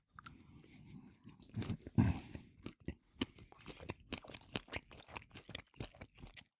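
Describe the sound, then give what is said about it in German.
Biting into a Berliner Knacker sausage topped with Polish mustard: a crunchy snap of the casing followed by many small, irregular chewing crunches, moderately loud, with no talking. “Ich probiere jetzt mal auf der Berliner Knacker mal den Rolewski.”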